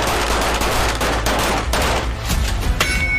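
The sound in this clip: Gunfire at a police special forces shooting training session, a dense, continuous clatter of rapid shots with sharp cracks overlapping throughout, loud and without pause.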